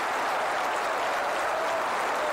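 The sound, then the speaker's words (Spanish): Steady applause from an audience after a live Venezuelan music performance: a dense, continuous patter of many hands clapping, even in level throughout, with no voices standing out. “Demasiado como para tan poco aplauso.”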